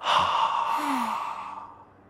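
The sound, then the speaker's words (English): One slow breath out through the mouth during a calming breathing exercise, a soft breathy sigh that starts at full strength and gradually fades over about two seconds. “So let's breathe slowly in through our noses. Then slowly breathe out through our mouths.”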